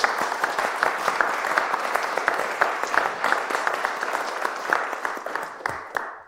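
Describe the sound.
An audience applauds to welcome a speaker about to talk on a book about the destruction of the Fens of Eastern England, with steady clapping from many people that thins out and fades at the end.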